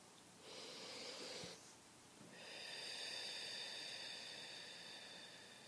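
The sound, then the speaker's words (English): A slow, deep breath during a calm guided self-care exercise: a soft, breathy inhale of about a second, a short pause, then a longer, airy exhale that swells and gently tapers, heard alone at low level. “Nice deep breath.”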